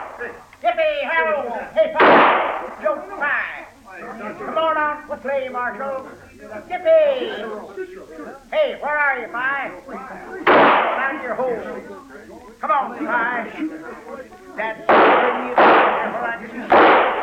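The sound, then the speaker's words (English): Gunshots crack out as several sharp, loud bangs spread through a street scene in an old western radio drama, widely spaced at first and then bunched near the end, with men talking between them. “That's enough shooting.”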